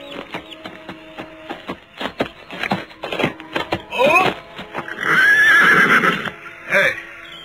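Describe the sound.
A horse neighs as a rider approaches, letting out a loud, drawn-out, quavering whinny in the second half. Irregular clattering knocks come before it.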